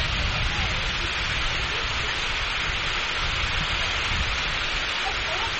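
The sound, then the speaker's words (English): Rain from a sudden pop-up shower pours down at an amateur baseball game, a dense, even hiss that continues without a break throughout. “Now it's raining. Just one of those pop-up showers that they said was going to happen.”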